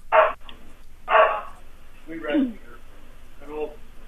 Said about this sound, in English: Hey, that dog in the background barking,